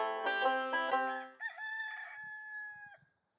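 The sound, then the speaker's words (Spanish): A young rooster crows once at dawn from a mango tree in a village. The crow is a single loud, harmonic call of about three seconds: a rough, choppy opening phrase, then a long sustained tone. No other sounds are heard. “Cuando el gallito despertó a la mañana siguiente, hizo lo que todos los gallos hacen por naturaleza: cantó.”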